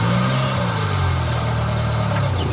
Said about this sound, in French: Marche arrière. Ouais. Allez-y, lâche l'embrayage.